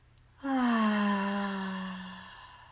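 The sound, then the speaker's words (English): Long audible exhale during a guided breathing exercise, a soft voiced sigh that begins abruptly and slowly falls in pitch as it fades, heard alone and fairly quiet. “Breathe in and out.”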